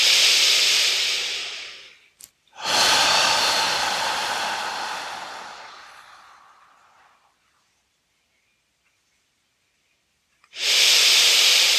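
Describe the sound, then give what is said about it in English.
A medium-to-full in-breath during a lower-belly breathing exercise: loud, rushing breaths of air with a brief click, the longest slowly fading out before a few seconds of silence, then another strong breath begins. “Let's go for it again. Medium to full in breath.”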